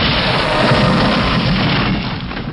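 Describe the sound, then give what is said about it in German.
A loud, sustained roaring explosion as a portcullis is torn apart by a huge machine of iron and steam, a dense unbroken blast rumble lasting the whole time without a distinct single bang. “Unter einer scheppernden Explosion wird das Fallgitter in abertausende Teile zerrissen, als sich ein gewaltiges Ungetüm aus Eisen und Dampf in den Raum zwingt.”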